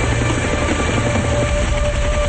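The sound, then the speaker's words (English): A helicopter approaches a clearing on a tropical island, its engine and rotor making a loud, dense, continuous roar with a faint tonal whine. “The men look up as the helicopter approaches.”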